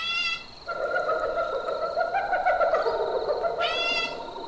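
Rainforest ambience full of birds and animals: a steady chorus of droning tonal calls is layered with bright, rising, whistled bird calls that open the scene and return near the end.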